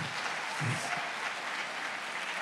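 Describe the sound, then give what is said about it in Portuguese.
Applause from a church gathering welcoming young people arriving back from the Alive event: dense, steady clapping that holds at an even level for the full stretch, with no voices rising above it. “Uma salva de palmas aí para os nossos jovens.”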